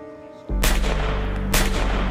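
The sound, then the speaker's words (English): Gunshots fired from a gun, two loud, sharp blasts about a second apart, each followed by a heavy, lingering low boom. “He pulled the trigger, firing four shots recklessly.”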